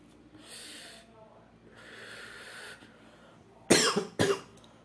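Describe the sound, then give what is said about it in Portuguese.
A person coughs after smoking cannabis. Two loud, rough coughing bursts come close together near the end. Two longer, quieter breathy stretches come before them. “Se você é maconheiro, você tá acostumado com pessoas tossindo no seu ouvido.”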